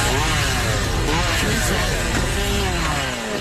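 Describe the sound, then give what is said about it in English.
A chainsaw cutting down a tree gives a loud, continuous motor drone whose pitch wavers throughout, with no pause. “We don't know why he's cutting down a tree.”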